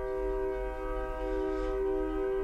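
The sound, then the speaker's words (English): A passing train gives off a steady, sustained tonal drone over a low rumble, holding an even, fairly loud level from start to end. “I love that we can hear the train too.”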